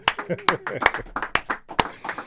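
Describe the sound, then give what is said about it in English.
A small studio audience of about fifteen people claps: several sharp, scattered hand claps at an uneven rhythm, with a person talking over them. “Let's give a big round of applause in the studio, guys.”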